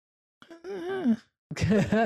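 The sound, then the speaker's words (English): A pained groan from a video game: two drawn-out voiced moans separated by a brief pause, the first wavering and then dropping in pitch, the second rougher and more strained. “That's such a pained groan.”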